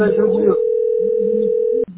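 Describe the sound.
A telephone dial tone hums as a steady, unbroken pitch for over a second while a call is being placed, following a brief spoken phrase and ending in a click.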